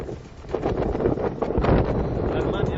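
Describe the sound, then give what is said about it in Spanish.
Strong wind blowing on the coast at El Médano in Tenerife, a loud, steady rumbling roar of buffeting gusts that swells and rustles throughout with no clear break. “Bueno, pues así suena el viento a la altura a esta hora, hace muy pocos minutos, en el Médano, en Tenerife”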